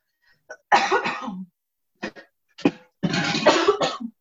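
Harsh coughing and throat clearing follow a breath of vinegar fumes while cooking: a few raspy bursts separated by short pauses, with the longer fits at the start and the end.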